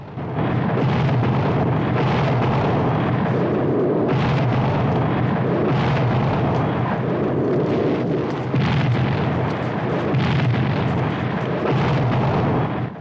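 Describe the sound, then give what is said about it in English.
Huge enemy guns at an emplacement fire in a sustained barrage, with heavy booms and blasts running together into a loud, continuous roar and no pauses throughout. “the vast enemy guns blasting away right beside them”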